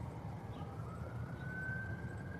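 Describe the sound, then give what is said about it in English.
Emergency vehicle siren in the distance outdoors on a chilly clear morning: a faint, steady wail slowly rising in pitch over a constant low rumble of background noise. “as you hear the sirens in the distance”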